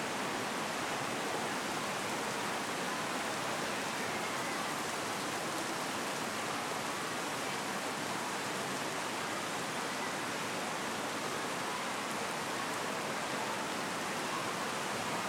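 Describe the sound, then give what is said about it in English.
Rain falls as a steady, fairly soft, even hiss that never changes, with no voices. “I'm sure many of us are happy that it is raining.”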